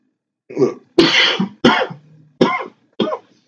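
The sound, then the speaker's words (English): Loud coughing fit after taking a puff of smoke: five harsh, separate bursts spaced about half a second apart, with a brief low rasp after the third, no talk. “That's a loud cough, man.”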